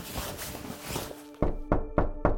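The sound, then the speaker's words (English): Knocking on a house door, heard as four sharp, evenly spaced raps after a stretch of softer, noisy rustling. “As soon as I entered the living room, the knocking stopped.”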